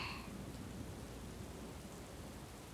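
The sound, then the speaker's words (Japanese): Steady rain hisses evenly with a low, continuous rumble of thunder underneath, holding one even level throughout with no voices. “雷が遠くに行っちゃうまでもう少し。”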